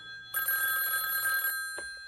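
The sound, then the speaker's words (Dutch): A telephone rings in one sustained burst of bright, steady electronic bell tones, then falls silent, with no voices. “Dat betekent... Telefoon.”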